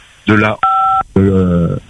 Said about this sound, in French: Alors, vous avez un bip avec le téléphone hein, qui revient assez souvent.